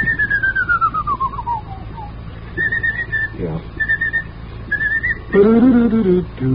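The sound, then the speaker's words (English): A person whistles a march tune, opening with a long note that glides downward, then moves into short, bright, repeated phrases. The whistling is clear and steady over a faint background hiss. “marches are very difficult to sing, and as a consequence, they're difficult to whistle.”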